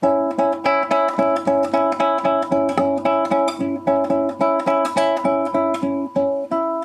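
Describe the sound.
Guitar notes plucked with both fingertip flesh and nail, many evenly spaced, ringing plucks in a steady rhythm, each sharp attack fading quickly before the next.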